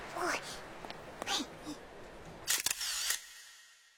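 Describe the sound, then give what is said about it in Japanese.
Camera shutter clicks as a group photo is taken at the close of a comic convention event. A few sharp, quick clicks come after brief voices. “それじゃあ撮りますよ。”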